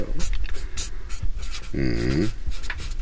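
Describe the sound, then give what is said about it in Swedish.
A felt-tip pen scratches out a name and date on a bedroom wall in soft, short strokes, heard under people talking, with one voice briefly rising over the scribbling. “här finns då en tuschpenna för dig. Och så skriver du bara ditt namn och dagens dag. Jag tar det här första lediga utrymmet nu då.”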